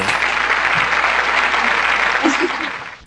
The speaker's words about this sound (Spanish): Vaya, un aplauso para todos.